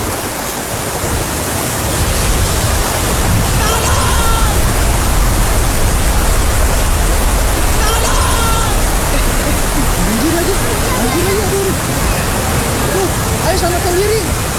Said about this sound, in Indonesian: Aduh guys, hujan lagi gimana dong? Iya hujan ya.